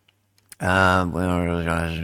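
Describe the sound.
Computer mouse clicking on a comment: a few small, quick clicks land in near silence, then a voice starts talking and continues over the rest.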